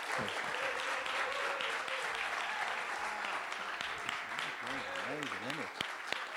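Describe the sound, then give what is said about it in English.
A church audience in Leamington Spa applauds a welcome with dense, steady clapping throughout, and a voice speaks over it toward the end. “So why don't we give a big Leamington Spa welcome, bigger than before. Let's honor them this morning.”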